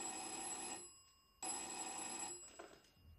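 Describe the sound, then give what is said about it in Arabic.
A home telephone bell ringing, two long trilling rings separated by a short pause, fairly faint and with no voices. “في يوم سمعت جرس التليفون.”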